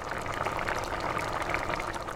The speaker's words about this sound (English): The rice has to cook for about 20 minutes